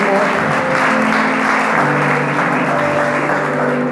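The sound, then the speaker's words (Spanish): A church audience applauds in a steady, dense wash of clapping, loud and unbroken for the whole stretch, with sustained musical tones underneath. “¿Cuántos le pueden dar un aplauso a papá en esta hora?”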